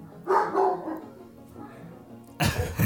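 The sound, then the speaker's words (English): A pet dog barks in a few sharp, loud bursts, with a quieter stretch between the first barks and the final outburst. “Sorry, that's my dog.”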